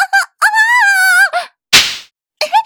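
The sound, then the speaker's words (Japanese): A hard slap on the buttocks lands as one sharp, noisy smack between drawn-out voiced moans, loud and close in level to the voice. “そんな強くお尻を叩くなんて、ごめんなさい。”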